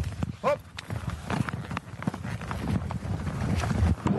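A horse setting off at a trot: many regular clopping hoofbeats in a quick, even rhythm, fairly faint over a steady rustling background.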